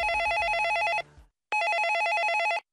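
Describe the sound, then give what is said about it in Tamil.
A telephone rings with an incoming call at a police station at night: two bursts of bright, rapidly trilling electronic ringing, each about a second long, separated by a short silence. “ஸ்டேஷன்ல இருந்து கிளம்புறப்ப ஒரு phone call வந்துச்சு.”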